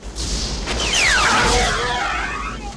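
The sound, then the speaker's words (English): A handheld phaser weapon fires with a sci-fi energy blast: bright whistling tones sweep downward in pitch over a loud whooshing, booming rumble that swells and then fades across nearly three seconds. “The Klingon whips round, weapon raised, so Kirk shoots him with his phaser,”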